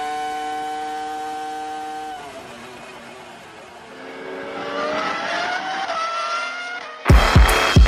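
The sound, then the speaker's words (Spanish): High, whining engine note from an FW25 Formula 1 car's V10 engine, loud and alone: a steady harmonic tone that drops, then climbs again in pitch before ending in a sudden loud, rough burst. “Corriendo con ese sonido de ese motor V10.”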